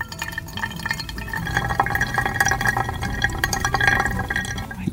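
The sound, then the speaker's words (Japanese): Hot water poured over coffee grounds during the main extraction pour of a pour-over brew, about 100 g of water: a continuous soft trickling and splashing with small drip-like ticks throughout. “本抽出をしていきますここではだいたい 100ml100g までお湯を入れていきます”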